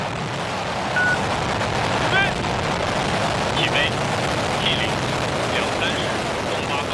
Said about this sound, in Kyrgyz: Саат 23:08 өткөндө ракетага от тутандырылып учурулду.